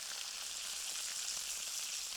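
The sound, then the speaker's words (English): Onions fry in a pan with a steady, even sizzle and hiss that keeps going without a break. It is fairly quiet, and nobody talks. “I cook the onions in a pan.”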